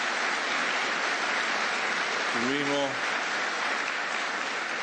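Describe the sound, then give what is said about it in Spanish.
Audience applause at a ministerial speech honouring the Navy: a dense, steady wash of clapping that fills the whole five seconds at an even level, with a brief voice rising over it near the middle. “Así que pido un aplauso para la Armada.”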